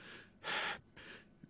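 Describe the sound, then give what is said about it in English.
Fast, heavy breathing right after a workout: a few quick, forceful breaths of airy rushing noise, the middle breath loudest, with no talk. “Yet it is not me who has decided to breathe quickly at this moment. My chest muscles are forcing me to.”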